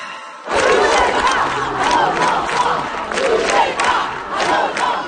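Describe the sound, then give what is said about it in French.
Large protest demonstration crowd in France chanting and shouting together, a loud, dense, continuous roar of many voices with rhythmic surges throughout. “ce que vous entendez, ce sont les manifestations des derniers jours en France.”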